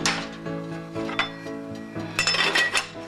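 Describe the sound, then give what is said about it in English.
A cover is set onto an oven dish of kasha with a few ringing clinks and clatters of cookware, bright metallic tones that linger between the knocks. “Put the cover on, back in the oven, between 250 and 300 degrees for a half an hour.”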